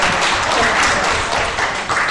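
Audience clapping at a class, a dense, steady burst of applause that stays loud across the whole moment.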